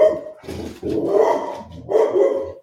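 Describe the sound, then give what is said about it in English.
A female dog barks a few times in loud, rough bursts with short pauses between them, and no talk is heard. “That's just the dog introducing herself to the pod. She's just, yeah, she wants to say hi.”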